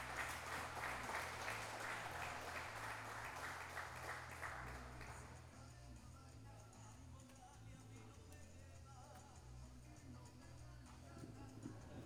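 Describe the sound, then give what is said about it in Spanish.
Audience applause at a pluricultural gathering in Salta, honouring a Malvinas war veteran: a dense, steady wash of clapping for about five seconds, then fading into a quieter background of scattered small sounds. “Fuerte aplauso, por favor, para nuestro héroe de Malvinas.”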